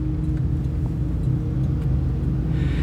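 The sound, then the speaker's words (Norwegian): A taxi driving along a town street gives a steady, loud, low engine rumble with road noise throughout. “Taxien kjører forbi de tre.”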